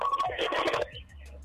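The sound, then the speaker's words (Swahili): A caller's radio blaring in the background of a phone call, a loud harsh burst lasting under a second, then dropping to a faint hiss over a low steady hum. “Punguza sauti ya redio yako.”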